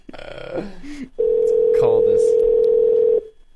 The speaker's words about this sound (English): The longest ring I've ever heard.